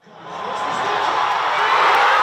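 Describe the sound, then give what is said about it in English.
Fans at a soccer watch party in Toronto cheer a goal by Canada against South Africa. The broad crowd roar climbs quickly in the first half second, then stays loud and sustained to the end. “At a watch party in Toronto, the crowd goes wild.”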